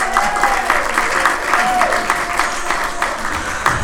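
Loud audience applause for a comedian being introduced on stage at a clean comedy show, a dense, steady clatter of clapping that holds at full strength throughout.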